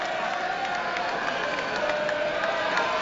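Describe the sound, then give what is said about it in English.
A baseball stadium crowd roars, boos and hisses during a pitching struggle. It forms a dense, steady wash of many voices at an even, moderate level with no clear breaks. “The roar of the crowd, the boos and the hisses can only mean one thing.”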